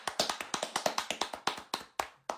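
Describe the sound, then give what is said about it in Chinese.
One person claps hands in a rapid series of sharp, crisp claps. The claps keep an even beat at first, then slow, with longer gaps between the last few. “我在这里为这些男性朋友 鼓鼓掌。”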